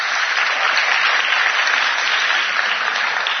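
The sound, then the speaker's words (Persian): Audience applause at a meeting: a dense, steady wash of many hands clapping, loud and even throughout with no voices standing out. “نمیخوام اینا برای من دست نزن، نمیخوام.”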